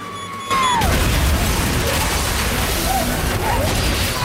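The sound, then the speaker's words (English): A huge explosion hits suddenly, hurling steel ball bearings, vehicles and shattered glass through an area full of police. The sharp blast gives way to a sustained, loud roar of crashing, rattling debris that stays dense to the end. “The girl detonates, creating an almighty explosion that rips through the entire area.”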